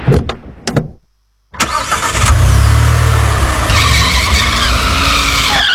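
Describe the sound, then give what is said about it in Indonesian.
A car skids on a slippery, wet road in the dark. A few short, sharp bursts and a brief silence come first, then a loud, sustained rush of tyre noise over engine roar. “hampir aja kita nabrak pembatas jalan tuh. Ya gimana, ini jalannya licin loh, gelap pula lagi nih”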